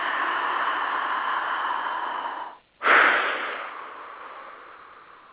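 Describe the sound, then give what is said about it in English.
Slow deep breath from a guided relaxation exercise: a long, steady airy inhale, a brief silent pause, then a stronger rushing exhale that gradually fades. Alone, with no talk. “Let's do it together. Big breath.”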